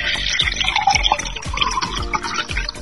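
A tequila avocado margarita is poured into a glass with a steady, splashy gurgle, and low pulses recur every so often beneath the bright liquid hiss.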